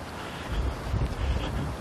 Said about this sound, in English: even with the wind blowing to dry stuff out, it's still pretty soggy.